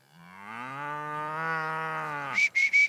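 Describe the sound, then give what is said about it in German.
A cow moos on a farm, an old animal of about fifteen years, giving one long, low, steady call that holds for over two seconds, followed by a few short, higher chirps. “Guck, der Bulle hat uns schon gesehen, ne? Oh oh. Corinne, komm. Die ist bestimmt schon 15 Jahre jetzt, die Kuh.”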